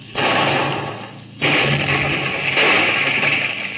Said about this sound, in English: Forward gun! Fire!